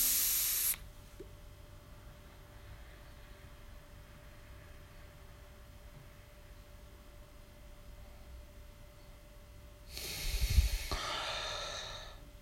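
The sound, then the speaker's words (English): Breathy hissing exhales of vape smoke during a French inhale attempt: a short burst at the start, a long quiet stretch, then a longer, louder rushing exhale near the end. “To French inhale or whatever it is called. Wait, or exhale.”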